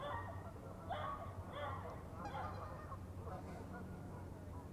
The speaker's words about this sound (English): you're hearing a lot of geese in the background who are not censoring themselves. They're talking perpetually.